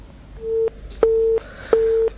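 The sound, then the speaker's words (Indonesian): Telephone busy tone after a caller to a phone-in line is cut off: three loud, steady mid-pitched beeps of equal length, evenly spaced with short gaps, with no voices. “sambungan telepon kami dengan penanya terputus”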